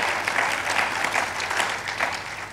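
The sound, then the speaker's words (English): A church audience applauds to welcome out-of-town visitors at a morning service, a dense, steady wash of many hands clapping that holds at an even level throughout. “Come on, let's just give them a hand this morning.”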